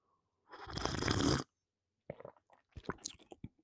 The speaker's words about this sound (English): Well, I'm just going to take a drink of this tea. Try it.